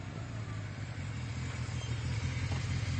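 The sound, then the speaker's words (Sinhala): A motor vehicle engine rumbles outside, a steady low drone that holds evenly for the whole stretch, with no voices and no clear revving. “හා? වාහනයක් නේද?”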